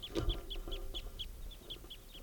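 A flock of birds that includes one male gives a quick, steady series of short, high-pitched calls, faint and with no other sounds.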